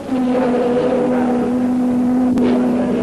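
Racing cars, a Ferrari leading the race, produce a loud, steady engine drone at a constant pitch, with a brief sharp burst of noise near the end.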